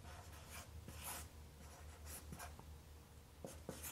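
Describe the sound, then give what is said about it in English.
A pen scratches on a surface as someone writes by hand and draws a percent sign. The short, faint strokes come in a few quick bursts with pauses between them. “forgive me for being a complete moron when it comes to writing and drawing and where my percent sign goes”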